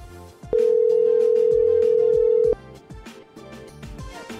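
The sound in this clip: Telephone tone on a call going to voicemail, a single unbroken beep at one even pitch lasting about two seconds, loud over quieter music-like sounds before and after.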